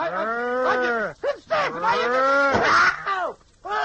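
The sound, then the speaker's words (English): A person imitates a cow mooing, producing a few drawn-out, low, groaning moos with brief pauses between them. The calls are loud and strongly voiced, and there is no other talk. “I can make a noise like a cow, sir.”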